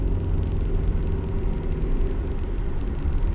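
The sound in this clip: A car being driven on the road gives a steady, low engine and road rumble, an even drone that runs unbroken with no talk.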